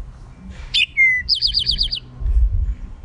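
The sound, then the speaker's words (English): Song of a bird whose males are jet black and burnt orange and whose females are brown: a couple of sharp whistled notes, then a rapid trill of about seven repeated high notes over a low background rumble. “The males are a jet black and a burnt orange color, and the females have kind of a milk chocolate brown where the males have black. And their song, some people say, sounds like drink your tea.”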